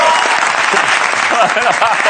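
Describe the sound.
Audience applause in a television studio, dense steady clapping that stays loud throughout the short burst, with faint crowd voices mixed in.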